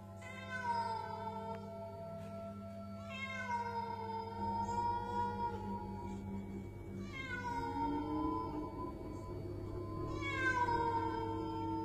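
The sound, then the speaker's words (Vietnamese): A cat meows outside at night, four drawn-out, wavering cries spaced several seconds apart over a steady low hum. “thì đúng lúc ở bên ngoài bỗng nhiên có tiếng mèo kêu”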